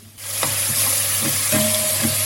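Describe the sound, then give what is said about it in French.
Steady, loud sizzling of oyster mushrooms frying golden in a pan as snails are added, with a few soft knocks and clinks over the continuous hiss. “Voilà, ça a bien doré. Et maintenant, je vais rajouter les escargots.”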